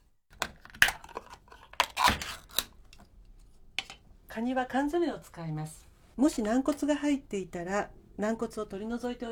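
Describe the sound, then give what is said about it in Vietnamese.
Eggs seasoned with salt and pepper are beaten for an omelette with a whisk or chopsticks, giving a few sharp, irregular clicking taps, followed by a person talking over fainter clicks. “Tiếp đó đánh trứng bằng dụng cụ chuyên dụng hoặc đơn giản là bằng một đôi đũa như vẫn thường làm.”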